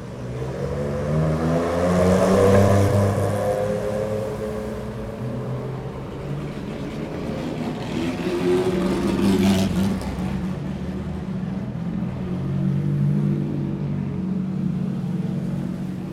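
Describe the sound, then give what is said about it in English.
Vintage 1950s cars drive past on a wet road in Farnham on a rainy afternoon. Their engines make a steady low rumble, with a brief hissing swell partway through. “The headlights shining on the road of some of these vehicles just show how wet it is this afternoon.”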